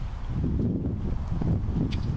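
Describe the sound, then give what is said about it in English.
Breath blown into a microphone makes a low, rumbling wind-like roar that stays fairly steady for about two seconds, with no talk. “You can hear it in my microphone. Wind, breath.”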